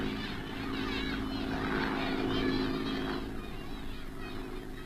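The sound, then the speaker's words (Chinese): Japanese warplanes fly overhead and away, giving a steady droning propeller hum with a buzzing tonal edge. The drone swells slightly toward the middle, then gradually eases. “大家愤怒地瞧着日本人的飞机飞远了”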